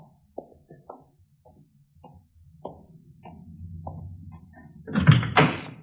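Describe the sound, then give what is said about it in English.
A car door being opened in an old radio drama sound effect: a few small clicks and knocks of the handle, a low rumble, then a louder thump and rattle as the door swings open. “Now, will you raise that handle on the other side so I can get in? Yeah, sure. Fine, thank you.”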